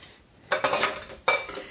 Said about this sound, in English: All right, that's three times through, little tiny bits of garlic. It doesn't look like much in there, but I think it's going to be plenty. Scraping this all out of the press.